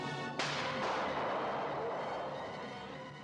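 A single gunshot in a film scene, a sudden loud crack followed by a long, fading rumble.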